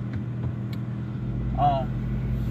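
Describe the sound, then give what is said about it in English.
A car driving down the road on the way to work gives a steady low engine and road rumble that thickens slightly partway through, a constant background drone. “I'm recording this podcast as I'm driving down the road actually going to work.”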